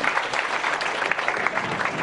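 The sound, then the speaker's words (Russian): An audience at a presentation claps steadily in dense, even applause, with many overlapping hand claps that keep a constant loudness for about two seconds. “Вы должны аплодировать, как бы вас не назвали.”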